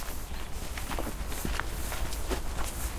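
Footsteps walk into a restored, slightly hilly rock garden: a steady series of soft, crunching steps at walking pace, heard over a constant low background rumble.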